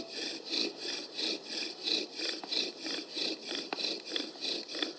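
A wooden fire drill spinning and rubbing in a wooden socket as it warms: steady, rhythmic rasping strokes in a quick back-and-forth pattern, fairly soft and with no voices.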